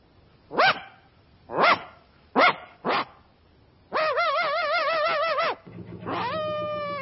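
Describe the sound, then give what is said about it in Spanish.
A dog barking on a farm: four sharp, separate barks, then longer, drawn-out wavering cries with strong tonal harmonics, all loud and alone with no voices. “En una granja, lejos de la ciudad, un perro transmite el mensaje subido a un altozano.”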